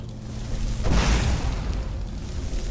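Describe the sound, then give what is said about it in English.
A fire bolt spell explodes in a fantasy video game during a fight with frostbite spiders. A sudden loud burst swells into a sustained, roaring rumble that holds for about two seconds. “Shooting firebolts at him.”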